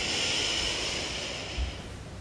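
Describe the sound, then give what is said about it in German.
A deep breath in during a relaxation breathing exercise: a steady, airy hiss that lasts about two seconds and eases slightly toward the end. “Jetzt wollen wir wieder tief ein- und ausatmen und Anspannung abfallen lassen. Wir atmen tief ein”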